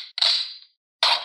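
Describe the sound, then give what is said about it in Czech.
A shotgun is loaded: two sharp, bright metallic clacks separated by a short silence, each with a brief ringing tail. “Využiju nabíjení brokovnice.”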